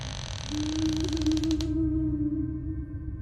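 A door creaks as it is pulled shut, one long, drawn-out strained creak lasting about two seconds, rough and crackly at first, then settling into a steadier groan.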